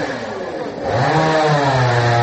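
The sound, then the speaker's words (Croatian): A chainsaw revs as villagers cut a fallen log blocking the road to a house, a harsh buzzing engine drone that swells louder partway through and then holds steady and strong to the end. “Nekoliko meštana testerom seče balvan koji je preprečio put do jedne kuće.”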